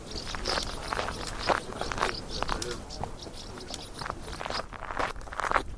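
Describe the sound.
Footsteps on the coastal hiking trail out of Sauzon on Belle-Île, along the clifftop above the ocean: many irregular crunching, scraping steps at a steady moderate level throughout.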